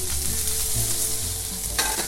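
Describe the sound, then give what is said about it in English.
Food frying in a pan with brown crispy bits forming, a steady, loud sizzle throughout, broken near the end by a brief louder rattling burst as the pan is given a hard shake. “And then once you see some brown crispy bits at the bottom, just give your pan a really hard shake.”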